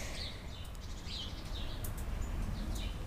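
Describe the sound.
Birds chirping outdoors outside a cabin, with a few faint, high, short calls scattered over a steady low background hiss.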